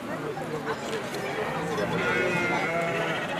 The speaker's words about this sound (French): Cortal, où sont regroupées les brebis